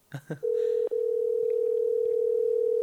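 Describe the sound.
A telephone dial tone as a call is placed: two brief blips, then a steady, unbroken tone that holds to the end with one very short break.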